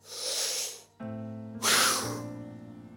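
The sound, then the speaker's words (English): A deep breath: a long breathy rush of air lasting about a second, a short pause, then a second loud breathy burst over steady sustained tones that fades slowly. “I want everybody to take a deep breath right now.”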